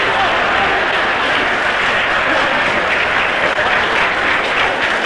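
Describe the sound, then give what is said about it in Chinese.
A large audience applauding and cheering after the second game of a match is won, a dense, continuous wash of clapping and crowd noise at a steady, loud level from start to end. “这时全场观众不得不再一次起立，为我们中国队员取得第二局的胜利而欢呼：中国庄自动”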